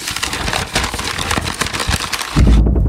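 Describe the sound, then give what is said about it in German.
A person imitates a leaf beetle rustling through foliage, a busy run of many small irregular crackles and scratches that ends in a louder, deeper burst. “so hört sich ein Käfer im Laub an”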